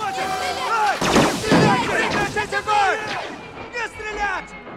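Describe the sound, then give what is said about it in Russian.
Blaster gunfire from rebels opening fire: a loud, rapid volley of many overlapping zaps, each sweeping downward in pitch, in dense bursts. “Повстанцы, среди них По и Лея, открывают огонь.”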